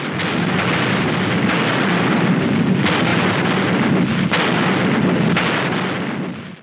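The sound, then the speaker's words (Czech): Long-range artillery shelling a city, Berlin in April 1945, heard as a dense, continuous rumbling barrage with a few sharper bursts cutting through the roar before it fades at the very end. “zahájilo Žukovovo dálkové dělostřelectvo palbu na město.”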